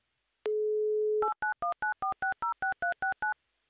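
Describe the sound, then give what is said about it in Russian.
Telephone dial tone on a call to Perm holds steadily for about a second, then a quick, evenly spaced run of about eleven clear touch-tone digit beeps. No busy signal is heard. “Мне интересно, почему Александра занята, когда мы звоним.”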